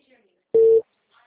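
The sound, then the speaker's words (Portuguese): A telephone busy tone after a dropped call: one short, steady mid-pitched beep sounding alone between faint background noise. “Caiu a ligação. É, caiu.”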